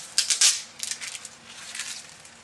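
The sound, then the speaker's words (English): Plastic label being ripped off a convenience-store plastic bottle: crinkly, papery tearing bursts, loudest in a few quick rips at the start, then softer crackling that trails off. “I'm going to use a bottle that you can pick up at a 7-Eleven. And all I'm going to do is I'm going to rip off the label, because I'm going to put my own label on in just a minute.”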